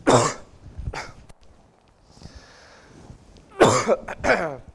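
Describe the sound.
Coughs and throat clearing from a preacher choking up with emotion during a sermon: a burst at the start, a lighter one about a second later, then a rougher cluster after a quiet stretch.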